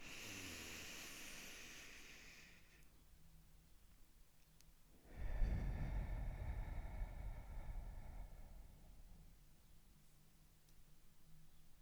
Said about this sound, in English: Let's take a deep breath in through our noses and now through our mouth.